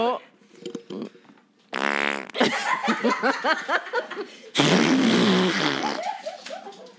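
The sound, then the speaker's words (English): Fart noises made by someone, a few buzzy, sputtering blasts broken up by chuckles and laughter, with people talking in between. “so I'm looking around because I hear these fart noises,”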